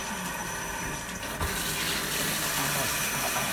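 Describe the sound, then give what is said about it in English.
Water runs from a sink tap in a continuous, loud, hissing rush that stays steady from start to finish. “Turn that sink off”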